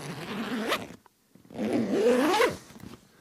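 Zipper on an Italian leather bag from The Bridge being pulled: two steady rasping strokes, each about a second long, separated by a brief pause, with a few faint clicks after.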